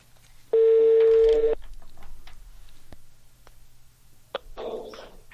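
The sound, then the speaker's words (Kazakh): A telephone ringing for an incoming call: a loud, steady electronic ring of about one second over a low hum, then a second, fainter ring begins near the end and is cut off. “Бізде қоңырау барып тұр.”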